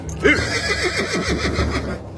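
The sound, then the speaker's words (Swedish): Horses neighing as they are led out of a cave: a moderately loud whinny made of a quick series of wavering, pulsing pitch swoops. “Hämta hästarna ur grottan.”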